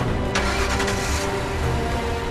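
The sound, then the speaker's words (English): A car reverses at speed in a rooftop car park. Its engine gives a loud, steady roar that continues throughout. “He reverses at speed.”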